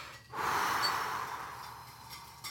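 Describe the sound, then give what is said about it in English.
One deep, hard breath during a guided breathing exercise, drawn in forcefully as a strong breathy rush that tapers off slowly over about two seconds, with no talk. “Breathe. Three good breaths. Watch one. Just good breaths. Another hard breath.”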